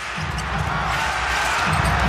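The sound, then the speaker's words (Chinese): In a professional basketball game, a basketball rebounds off the rim and thuds against the court a few times. The low, dull bounces sit under a loud, steady roar of arena crowd noise. “篮板球，这是一个长篮板，广东队还有到篮下”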